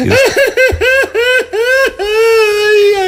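A person cries in a quick string of short, high, sobbing wails that end in one long, drawn-out wail, loud and up close.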